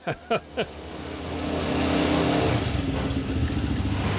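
An old car engine runs: a vehicle with a February 1967 tax disc and about 11,000 kilometres from new. Three sharp knocks come first, then a low, rough engine rumble swells and holds at a steady drone.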